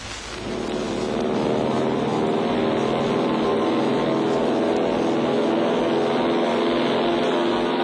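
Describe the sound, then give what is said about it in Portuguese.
Steady, loud propeller drone of a Portuguese airliner in flight, swelling in over the first second and then holding an even, rumbling tone with a faint harmonic whine throughout. No voices are heard. “Nos aviões dos transportes aéreos portugueses, chegará ao Porto numa hora e um quarto.”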